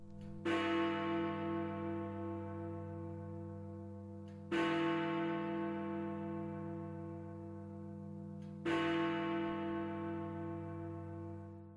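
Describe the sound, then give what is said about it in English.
The large bell in London's clock tower strikes the hour: three deep, heavy strokes about four seconds apart, each followed by a long, fading harmonic hum, fairly faint overall. “That is the sound of Big Ben. People from London like to call the ringing of Big Ben bongs.”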